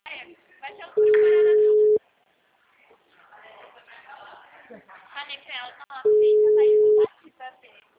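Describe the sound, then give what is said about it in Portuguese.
Two long, steady mid-pitched telephone tones follow a dropped call. Each lasts about a second, and they come several seconds apart while a person talks in between. “Caiu a ligação. É, caiu a ligação que eu apertei no meio.”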